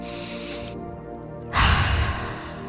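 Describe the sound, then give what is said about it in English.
Slow, audible breathing for a relaxation exercise: a soft breathy draw through the nose, a pause, then a louder, fuller exhale through the mouth, over a faint steady hum. “So we'll begin to take two slow inhales through your nose, followed by one long audible exhale through your mouth.”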